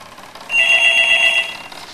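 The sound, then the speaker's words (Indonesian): A telephone rings in one bright, trilling electronic burst lasting about a second. It is loud and clear against a quiet background, with no voices. “Angkat telepon.”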